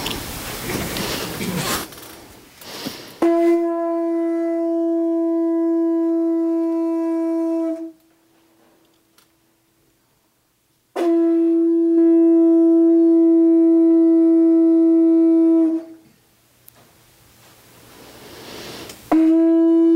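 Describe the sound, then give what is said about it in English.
A conch shell is blown to open a morning chant and meditation. Two long, steady blasts of a low, reedy, harmonic horn tone each last over four seconds, a breathy rush comes before the first, and a third blast begins at the end. “we're going to do something that is from a timeless, spaceless experience, the blowing of the conch.”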